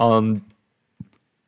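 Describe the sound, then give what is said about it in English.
A single short mouse click on the full schedule link of the ESPN website, heard alone in silence just after a brief burst of voice. “okay, so you have to click on full schedule.”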